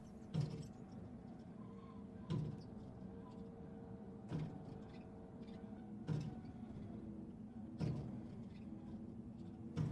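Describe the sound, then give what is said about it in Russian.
Bare branches swaying in the wind tap against a window pane on a grey winter morning. The taps come as a steady series of soft knocks roughly every two seconds over a low, constant hum. “Ветки, качаясь на ветру, мерно стучат в оконное стекло.”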